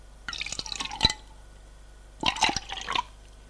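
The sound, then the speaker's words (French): Water is poured from a flask into drinking glasses in two separate splashy trickles, each lasting under a second and separated by a quiet pause. “Elle sort de sa poche un flacon, puis remplit d'eau les verres des garçons.”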